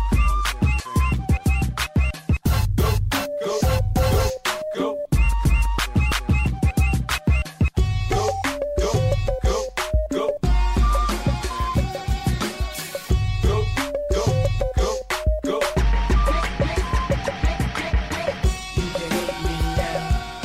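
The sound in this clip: Sample-based mashup music track built from spliced samples, with a heavy beat under shifting melodic fragments, cutting abruptly between sections throughout at a steady loud level.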